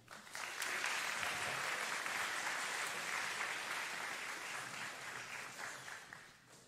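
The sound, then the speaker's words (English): Church audience applauding the band at a Sunday morning worship service at Germantown United Methodist Church, a full, even round of clapping that rises quickly, holds steady for several seconds and tapers off at the end. “let's give another round of welcome for our band”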